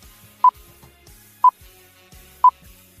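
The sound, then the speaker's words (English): Three short, identical electronic beeps at a steady mid pitch, evenly spaced about a second apart, mark the timing cue for a radio quiz game. Only faint background sound fills the gaps between them. “You're going to hear three beeps. The three beeps sound like this.”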